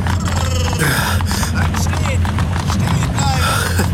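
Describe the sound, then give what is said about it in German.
A horse-drawn carriage clatters to a halt in a German audio drama, hoofbeats and wheels rumbling as a busy stream of irregular knocks over a low steady rumble, mixed with voices throughout. “Die Kutsche kommt zum Stehen.”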